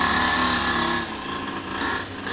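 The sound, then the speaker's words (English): A motorcycle engine revving outside: a loud, continuous mid-pitched drone with layered harmonic tones that sways slightly in level, with no talk. “It's like he slows down and then it gets closer to the... He's gonna pop a wheelie onto the porch next time.”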